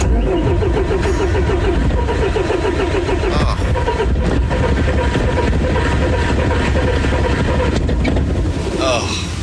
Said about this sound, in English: Are you slamming the gas? Yeah. Oh, sounds like it needs gas.